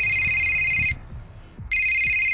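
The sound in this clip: A telephone rings in two bursts of bright, high-pitched electronic trilling separated by a short pause, the second burst starting up just as loudly as the first, with no talk.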